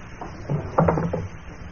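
A wooden desk drawer slides open with a faint scraping rattle, rising briefly to a rough, clattering peak before settling back into quiet.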